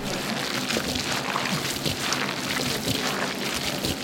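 Close, wet squishing of mayonnaise being mixed into lobster salad, a continuous crackly, slurping texture at steady loudness throughout, with no talk over it.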